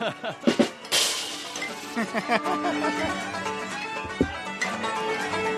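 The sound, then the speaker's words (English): Glasses clink in a comedy club with music in the background: many sharp chinks and a louder crash, mixed with chatter and voices. “Yeah, well, I know, because they got loud music in the background, and the clinking glasses was too much.”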